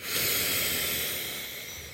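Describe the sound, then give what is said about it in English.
A long, deep breath during a guided relaxation, heard as a loud, steady, airy hiss that holds strong and then slowly eases off, with no talking. “Taking one last deep breath here.”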